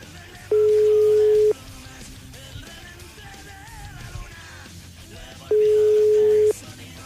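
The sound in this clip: Telephone call tones from a call that fails to connect: two long, steady, mid-pitched beeps, each lasting about a second and separated by several seconds of quieter background.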